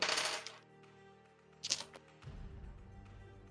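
Six dice clatter in a tabletop role-playing game session: two short, soft rattling bursts, the first longer, then a low murmur of background noise.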